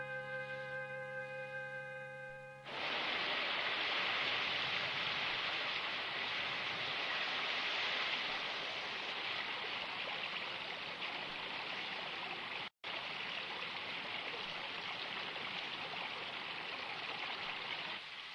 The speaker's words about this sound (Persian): درست به موقع داره طوفان میشه. برای من هیچ چیزی بهتر از یه بارون زیاد نیست. سطح آب رودخونه داره مرتب بالا میره.